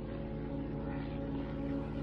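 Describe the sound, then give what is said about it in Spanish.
Loud, steady engine drone of a World War II-era airplane flying back overhead in a war drama, a continuous, dense roar with no breaks. “El avión vuelve. La niña lo mira.”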